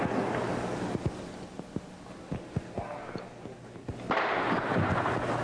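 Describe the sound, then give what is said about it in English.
Bullets ricochet off the top of a barrel during a battle, heard as a scattered series of sharp cracks and thuds over rumbling noise. The noise swells louder near the end. “Ricochet bullets bouncing off the top of the barrel.”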